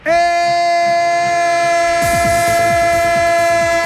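A train horn sounds as an effect, a loud sustained blast held throughout. After about two seconds it is joined by the rhythmic clacking of wheels over rail joints.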